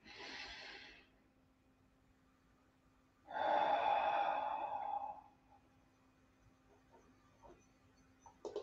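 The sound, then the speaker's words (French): A group breathes together in a guided relaxation exercise, taking a deep breath in and letting it out. A short, soft breath is followed by a longer, louder breath out with a faint voiced tone, then quiet. “Tous ensemble, prenons une profonde inspiration. Expirons profondément ensemble.”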